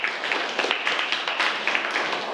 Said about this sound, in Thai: ปรบมือให้กับเพื่อนด้วยครับ